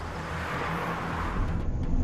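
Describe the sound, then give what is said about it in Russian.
A foreign car drives through a city with a continuous rumble of engine and road noise that swells slightly toward the end. “Иномарка Марка едет по городу.”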